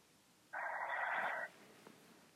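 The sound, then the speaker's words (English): A single heavy, hissing breath over a phone line, faint and lasting about a second, with quiet background noise before and after. “I said breathe in, out, in and out 5 times heavily.”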